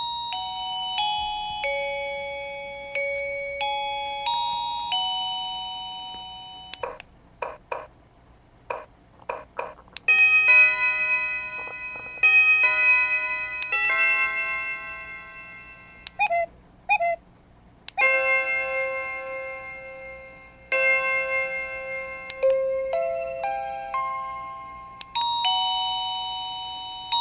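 A wireless door chime plays a series of different selectable melodies one after another. Each is built from clear electronic ding-dong tones stepping up and down in pitch, with short clicks and bursts between some of the tunes and no talking.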